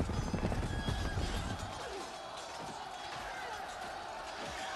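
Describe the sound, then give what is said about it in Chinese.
Horse hooves clattering at a gallop as mounted troops approach from behind, a rapid series of loud hoofbeats over a noisy rumble, with a horse whinnying. “只听到背后一阵马蹄声。”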